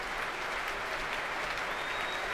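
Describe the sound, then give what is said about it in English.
A concert audience applauds pianist Marc-André Hamelin after a piano concerto with orchestra, a steady, dense wash of clapping that holds at an even level throughout. “And Marc-André Amelin back on stage with Jacques Funstein, who doesn't want to share in this applause.”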